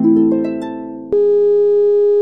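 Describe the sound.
A telephone line tone after a caller hangs up: a fading tone gives way to a steady, held electronic tone of middling pitch that lasts about a second, then stops abruptly.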